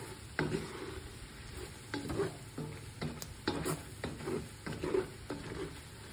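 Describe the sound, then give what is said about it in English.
Spoon stirring a tablespoon of flour into a batter-like mixture: a run of repeated swishing, scraping strokes at a fairly steady rhythm, moderately quiet, with no talk. “So we're going to add one more tablespoon of flour. I'm going to mix that up.”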